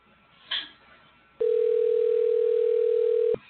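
A telephone dial tone after a number is dialed: a short high beep, then a steady, unbroken tone at one pitch lasting about two seconds before it cuts off.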